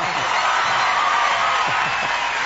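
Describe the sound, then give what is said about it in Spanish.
Crowd applause and cheering for a guest at a live show in Tarragona, a dense, steady wash of clapping and whoops that holds at an even loudness throughout. “Un aplauso muy fuerte para Andreu Buenafuente,”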